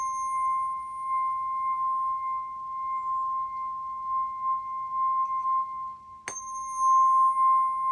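Sound-healing tuning fork rings a steady, pure, high tone that swells and dips in loudness as it is moved, then a sharp click near the end is followed by a stronger renewed ring.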